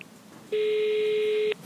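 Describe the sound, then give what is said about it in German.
A telephone ringback tone sounds while a call is being placed: one steady, loud, mid-pitched beep lasting about a second, with no voices. “habe ich in Groß Paschleben noch einmal angerufen”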